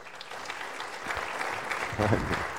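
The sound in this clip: Audience applause welcomes a guest speaker at a church gathering: an even, steady wash of clapping throughout, with a brief voice near the end.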